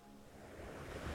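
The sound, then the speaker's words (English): Gentle ocean waves roll onto a sandy shore, a soft, steady wash of surf that swells slightly louder toward the end, faint and without voices. “looking out over the gentle ocean waves as they roll towards the sandy shore.”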